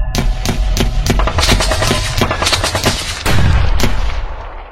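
Rapid, loud gunfire with bullets striking a temple in Chiapas, Mexico, during a massacre: many sharp cracking shots in dense, irregular bursts throughout, with no voices.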